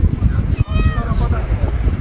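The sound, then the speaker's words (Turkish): A mother cat meows while searching for her kittens after a grass fire: one drawn-out, tonal meow rises out of steady, rough background noise that continues throughout. “Anne kedi çaresizce miyavlayarak yavrularını aradı.”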